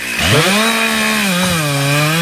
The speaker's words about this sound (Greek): Χορτοκοπτικό μου φαίνεται.